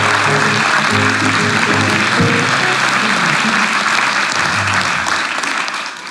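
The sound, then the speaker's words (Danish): Loud, sustained audience applause welcoming a politician onto a talk show stage, dense clapping that stays steady throughout and eases slightly at the end. “Giv en stor hånd til Tommy Ahlers. Velkommen til.”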